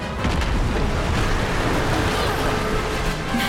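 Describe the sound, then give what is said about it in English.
A ship blows apart in a video game cutscene: a loud, sustained, rumbling roar of explosion that fills the whole clip without letting up. “I guess we're being hit. I guess I didn't get the climax attack in time. Ah! It blew apart the ship!”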